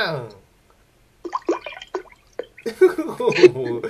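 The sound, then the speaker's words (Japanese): Liquid glugs and gurgles as a drink is poured, bubbly splashing in a brief run of uneven pulses, after and partly under a voice speaking. “なんか注いでたけど、何杯目なんだか。”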